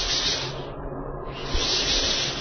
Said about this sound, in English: These are firebombs, hissing and flaming down out of the sky.